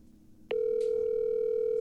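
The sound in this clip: Telephone dial tone on a line picked up to place a call: a click, then a loud, steady, unbroken tone that holds to the end, with no voices.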